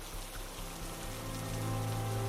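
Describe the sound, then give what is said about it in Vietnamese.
Steady rain falls without pause, an even, continuous hiss of drops on surfaces at a moderate-to-quiet level, with a faint low hum beneath it. “Trời vẫn mưa không ngớt”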